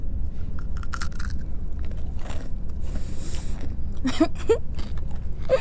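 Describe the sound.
A child bites into a candy stick, giving a few short, crisp crunches near the end over a steady low background rumble.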